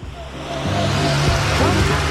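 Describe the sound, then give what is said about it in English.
A car driving by, heard as a steady broad rushing noise over a low engine hum, holding at an even loudness throughout with no other sounds standing out. “Funny ending. It's just the car driving by.”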